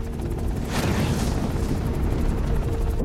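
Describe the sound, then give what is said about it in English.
Mark 77 incendiary bombs exploding into a carpet of fire that floods the streets, heard as a loud, sustained rumbling roar that stays deep and steady throughout, with a brighter hissing surge early on. “They explode, creating a living carpet of fire which floods the streets.”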